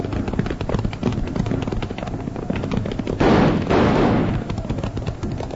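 Gunfire in a western radio drama: a rapid run of sharp cracks and thumps, with a louder, denser burst of shots in the middle.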